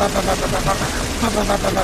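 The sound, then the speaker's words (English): A revolver fired rapidly in a film, like a machine gun, gives a dense, unbroken volley of many quick shots that blur into a steady, loud rattle. “he pulls out his like revolver and can shoot that thing faster than a fucking machine gun. He shoots it so fast.”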